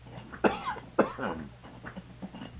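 Coughing to clear the throat: two sharp coughs come about half a second apart, followed by a few softer, rasping throat noises. All of it is fairly quiet.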